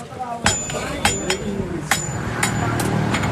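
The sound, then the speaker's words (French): A blacksmith in a bamboo-framed workshop hammers red-hot steel while shaping a small coconut-scraping tool. Several sharp metallic strikes ring out at an irregular pace over a low background murmur. “Il vient de sortir le morceau d'acier tout rouge et il le cogne.”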